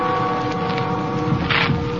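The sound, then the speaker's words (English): The steady, droning hum of a boat's engine with a few faint tonal lines as it comes into port at a small town on the Martinique coast. “At a little town on the Martinique coast, a boat has just come into port.”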